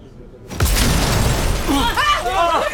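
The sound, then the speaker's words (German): Windows exploding into shattering glass: a sudden loud boom and crash breaks a brief quiet, then crackling debris continues while voices cry out. “Oh, verdammt! Was war das? Die Fenster! Die Fenster sind explodiert!”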